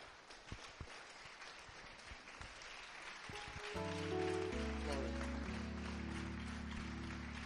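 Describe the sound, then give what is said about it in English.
A church audience applauds steadily to welcome a pastor, soft continuous clapping that is joined by sustained keyboard chords in the second half. “Let's put our hands together as we welcome Lady Pastor Ida.”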